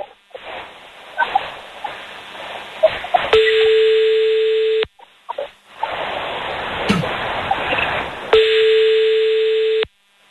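A French telephone ringback tone plays during an outgoing call: two steady single-pitch tones, each about a second and a half, separated by a long gap of hissy line noise, loud and with no talk over them.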